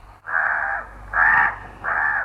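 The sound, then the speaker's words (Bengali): A crow caws three times in loud, harsh, drawn-out calls separated by short gaps, over a faint low hum. “আমি শুনতে পাচ্ছি একটা কাক শেষবারের মতো ডাকতে ডাকতে ঘরে ফিরে যাচ্ছে।”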